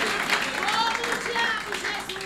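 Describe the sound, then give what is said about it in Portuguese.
A church audience claps for the Lord during a worship service, with steady, dense clapping blended under a prominent voice. “Pode bater palmas para o Senhor.”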